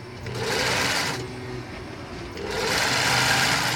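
A sewing machine stitching fabric, the same cloth as a newly bought cap, whirs steadily in two running bursts with a quieter slowdown between them.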